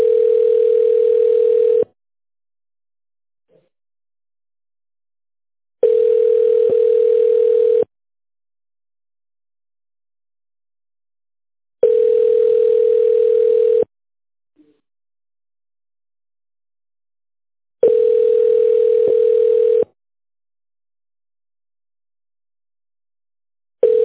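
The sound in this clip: A telephone ringing tone plays while a call is transferred: a steady, mid-pitched beep of about two seconds repeats four times with four-second silent gaps, and a fifth tone starts at the very end.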